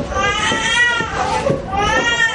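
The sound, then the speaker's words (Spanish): A baby whimpering in a carrycot, giving thin, wavering, whiny cries in a few uneven bursts that rise and fall. “La mujer consuela a un bebé que lloriquea dentro de un capazo.”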